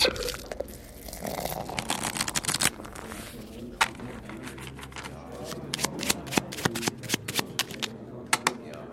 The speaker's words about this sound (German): Fangen wir mal so an. Wir spielen Karten, zwei Leute gegeneinander. Beide glauben, sie haben gute Karten.